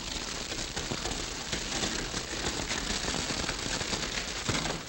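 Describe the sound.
A grass fire crackles in a radio drama, a faint, steady hiss dense with tiny snaps and pops that runs evenly throughout with no voices over it.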